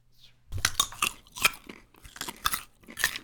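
Crunchy chewing of a raw organic carrot, with many crisp, bright bites and crunches in an uneven rhythm, loud and close.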